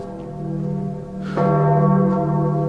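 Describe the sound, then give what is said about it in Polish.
Church bells ring with a rich, sustained metallic hum of layered tones, then a fresh strike midway swells louder and keeps ringing to the end, with no voices. “Co to jest? A, to niech pan się nie boi. To dzwony.”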